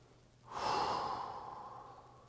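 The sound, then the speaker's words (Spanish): A deep, slow breath is drawn in after a short quiet moment, swelling quickly into a full airy rush and then tapering off gradually over nearly two seconds, with no talking. “Inhala bien profundo, hermana.”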